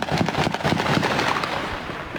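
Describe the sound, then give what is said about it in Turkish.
Gunshots fired into the air during a bride-arrival wedding ceremony in a neighbourhood of Kızıltepe, Mardin: many sharp, crackling bangs in rapid succession, loud and nearly continuous throughout. “Arabadan gelin indirme merasimi sırasında mahallede havaya ateş açıldı.”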